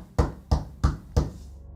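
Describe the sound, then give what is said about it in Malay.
Knuckles knocking on a table: four evenly spaced, loud, dull raps in a steady rhythm. “Sambil-sambil tu Si panjang ni Dia macam ketuk-ketuk meja sikit”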